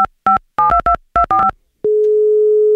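A phone call goes out. A quick series of electronic keypad beeps in uneven clusters is followed by a long, steady, single-pitched ringing tone that holds to the end, with no voices.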